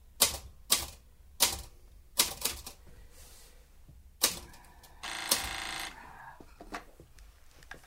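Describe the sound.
Someone types a sentence on a typewriter: irregular, crisp key clacks with uneven pauses, then a short dense rattle near the end, followed by a few more strikes.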